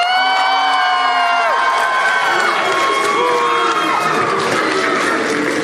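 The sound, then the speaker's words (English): A crowd at PAX East 2022 cheers and shouts in support of the Pokémon Bidoof, a loud, sustained wash of many voices with whoops rising above it. “I think the Bidoofs are louder, but they're more Bulbasaur. And I heard chanting, too.”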